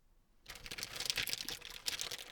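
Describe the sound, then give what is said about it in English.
Wrapping paper is ripped off a small gift box, a sustained, crackly tearing and crinkling that starts after a brief quiet moment and continues steadily to the end. “Here it is, a little box wrapped up in paper. Go ahead, open it for me, sweetie. Don't be shy, just rip off that paper.”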